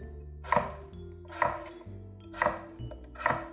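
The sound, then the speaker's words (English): A knife chops through a potato into half-inch pieces: four firm, separate cuts land roughly a second apart, each a sharp thunk against the board. “Then I'll flip it 90 degrees, and I'll do about 1/2-inch chops down the potato. And I'll do that on both sides of my potatoes.”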